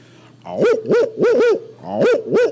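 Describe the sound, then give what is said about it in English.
A person's voice imitates an owl with a series of six rounded, breathy hoots in uneven clusters. Each hoot swells and bends slightly up and down in pitch. “If you want, I can do some animal impressions. Would you like that? Have you ever heard my owl?”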